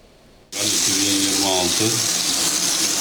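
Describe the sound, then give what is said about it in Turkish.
Muddy water gushes from a household tap in a district on Istanbul's Anatolian side after a reservoir fault, starting abruptly after a short hush and then rushing loud and steady to the end. “İstanbul'un Anadolu yakasında musluklardan adeta çamur akıyor.”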